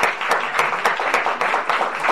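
Audience applause for conference organizers: dense, steady clapping with a rhythmic pulsing, holding at an even level throughout with no voices over it.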